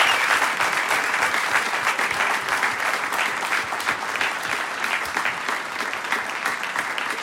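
Audience applause for the evening's sound technician at a live show: steady, dense clapping from many hands that stays even throughout, with no voices over it.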